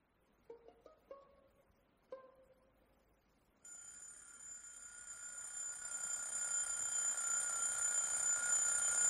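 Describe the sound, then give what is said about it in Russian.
An alarm clock rings inside the cab of a big orange truck parked on a quiet winter morning. A few short tones sound first, then a steady, high-pitched ringing starts and grows gradually louder. “Звонок будильника.”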